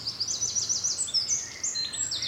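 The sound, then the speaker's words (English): A blackcap sings on a morning walk in the Brecon Beacons: quick, bright, high-pitched warbling phrases tumble out one after another, fairly faint but steady throughout, over a low hum. “Black cap in front of me.”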